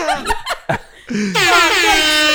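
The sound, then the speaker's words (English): An air horn is clicked and gives a loud, sustained, buzzing blast that holds steady to the end, after a short stretch of voices and laughter. “All right, I'm gonna chill on the air horn. I don't know why I'm clicking it.”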